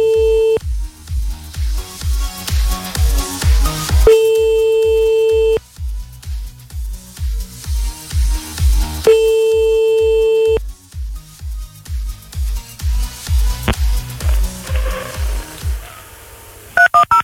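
Telephone keypad tones dial a number to call back: rapid bursts of short beeps broken up by steady, held tones that recur several times, ending with a few sharp clicks and no talk.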